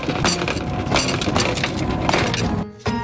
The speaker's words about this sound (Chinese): 小心敲碎泥巴，打开锡纸的一瞬间，酒精憋屈的香气一股脑全部释放出来。